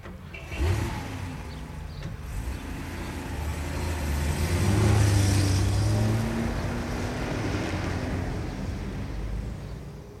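Car engine as a car drives off: a low steady rumble that swells to its loudest midway and then eases back, heard alone without talk.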